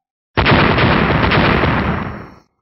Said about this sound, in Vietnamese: Liên tiếp tiếng nổ đinh tai nhức óc vang lên, từng đoàn hỏa diễm màu đen cực lớn từ cái khoai lang màu đen bạo liệt ra